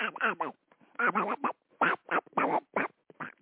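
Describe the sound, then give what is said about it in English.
A voice imitating a duck with a string of short, nasal quacks in quick, uneven bursts, broken by brief pauses. “I'm learning how to speak duck with Daffy over here.”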